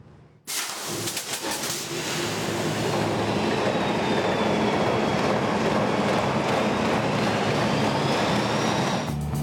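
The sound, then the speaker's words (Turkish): The engine of a locomotive crane starting up: after a brief quiet moment it bursts into a loud, steady, rumbling roar that continues to the end, with a faint thin whine above it. “Şimdi marşa basacağım ve motor dönecek. Önce ses çıkaracak, sonra çalışacak.”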